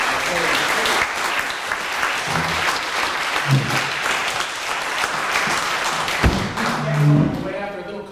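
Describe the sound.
An audience applauds to thank the speakers at the end of a talk on toxins and health, a dense, steady clapping that holds evenly throughout without a break.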